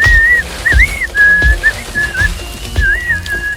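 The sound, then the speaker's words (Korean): A person whistles a few short, high, warbling phrases with brief pauses between them, clear and loud, joined by a few low thuds. “철수가 휘파람을 불더니”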